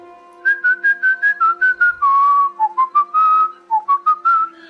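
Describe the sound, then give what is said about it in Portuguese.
A person whistles a bright, clear tune of many quick staccato notes mixed with a few longer held tones, loud and steady with no talk. “Quando você chega e assovia.”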